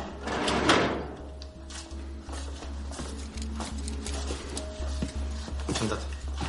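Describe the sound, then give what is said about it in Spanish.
A filing cabinet drawer slides and knocks shut as a police officer files a record away. The short scraping and bumping sounds sit under a narrating voice and a steady low hum. “un agente guarda su expediente en un archivador”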